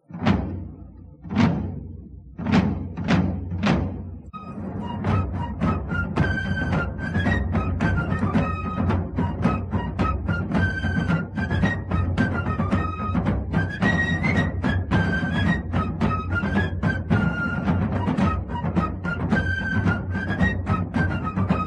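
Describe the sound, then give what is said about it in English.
Military march for grenadiers marching off to war: a few loud, spaced drum beats open, then a high, shrill fife-like melody plays over a steady rolling drum rhythm throughout. “Yeah, there go the Grenadiers marching into a glorious war. Somewhere.”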